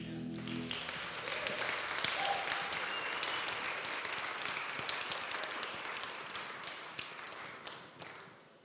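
A church audience applauds the worship team with dense, steady clapping that holds for several seconds before thinning out at the end.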